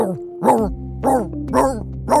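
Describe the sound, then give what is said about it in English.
A voice actor imitating a singing dog produces a run of short, tuneful yelping bark sounds, four or five wavering bursts in a loose rhythm, with a faint, steady low tone underneath. “voiced all kinds of quirky characters, from a singing dog”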